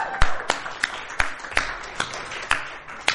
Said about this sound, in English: we clapped for you earlier, but you weren't here, so we figured we'd clap for you now.